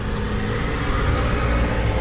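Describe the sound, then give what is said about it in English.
Steady street traffic in Rome, with mopeds and motorcycles passing near St. Peter's Basilica, heard one story up from the street: a continuous, dense low rumble of engines that holds an even loudness throughout. “Those are the mopeds. Well, they're really like motorcycles, a lot of them.”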